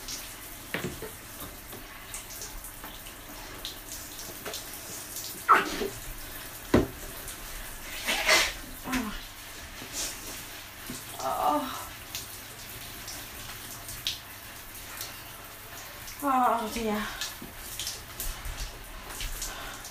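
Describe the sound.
Water splashes and trickles in a bath during hair washing. A few soft, scattered splashes and drips rise above a quiet, watery background.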